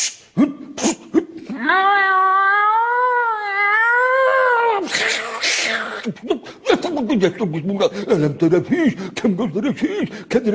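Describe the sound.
A cat gives a long, wavering, drawn-out meow, followed by a noisy burst and people talking.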